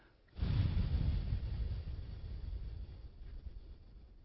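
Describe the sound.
Someone breathes out through the nose during a guided breathing exercise: a single long, soft, airy exhale that starts abruptly, then slowly fades over several seconds. It is faint, with no talking.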